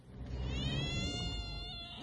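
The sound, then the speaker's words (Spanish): A cat meows in one long, drawn-out harmonic cry over a steady low rumble, and its pitch rises sharply right at the end. “No, ojo con el gato.”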